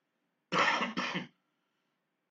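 A person coughs twice in quick succession, two short harsh bursts half a second apart, then silence before a third cough begins right at the end; no speech around it.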